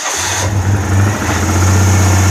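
A Citroën 2CV car engine runs in a steady, low, droning hum that holds at an even level throughout, with no voices over it.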